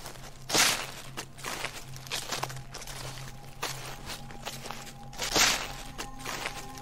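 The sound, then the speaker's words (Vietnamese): Footsteps crunch through dry leaves, a few brittle rustling steps with two louder, sharper crunches standing out, alone and without talk. “chính xác là tiếng bước chân dẫm lên lá khô soàn soạt”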